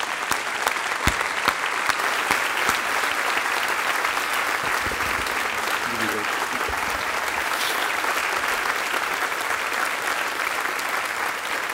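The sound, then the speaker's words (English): A church audience stands and applauds across both campuses to welcome a guest, a dense, steady wash of clapping that holds at an even level for the full length. “So I want you to stand to your feet at both campuses, put your hands together, and let's welcome Aaron to be with us this morning.”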